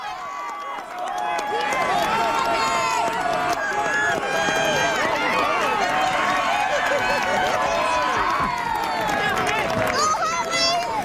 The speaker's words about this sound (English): Those are some of the runners in the corporate challenge, including some Coast Guard workers running in their full safety gear.